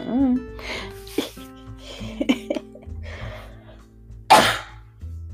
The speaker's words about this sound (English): Sorry for coughing all along right there, my bad.